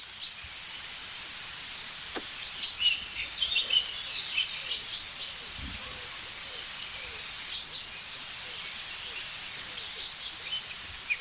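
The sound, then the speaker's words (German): Agitated chaffinches calling: short, high-pitched calls repeated in scattered bursts, faint over a steady hiss. “Ja, irgendwas regt jetzt die Buchfinken hier auf.”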